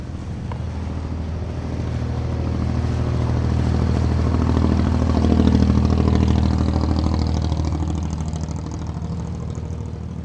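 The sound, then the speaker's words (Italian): Deafening engine roar of a flat-bottomed fiberglass boat setting off at speed across a shallow gulf, like an offshore race start; a loud, continuous low rumble that swells toward the middle and eases slightly at the end. “La partenza sembra quella di una gara di offshore. Il rombo del motore è assordante, le botte dello scafo sulle onde fanno temere un naufragio da un momento all'altro.”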